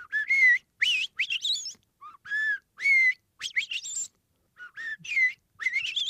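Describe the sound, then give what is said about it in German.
A blackbird singing and calling in several clear, fluting whistled phrases separated by short pauses. Each phrase mixes mellow mid-pitched notes with quick, high chirping flourishes. “Unterm Strich beeindrucken so selbst einzelne Vögel mit einem erstaunlichen Lautrepertoire, zum Beispiel die Amsel. Die hat nicht nur ihren Gesang.”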